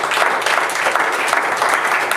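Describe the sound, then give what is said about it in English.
Applause from a church audience, a dense, steady wash of many hands clapping that stays fairly loud for the whole stretch without a break. “Give the Lord a hand of applause.”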